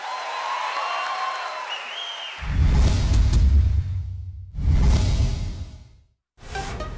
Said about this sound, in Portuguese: Mais aplausos.